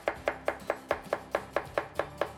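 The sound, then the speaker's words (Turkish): A sharp knife finely chops onions on a board in eleven crisp, evenly spaced taps with a steady, brisk rhythm. “Mümkün mertebe en ince şekilde hazırladığımız soğanlarımızı ince şekilde doğruyoruz.”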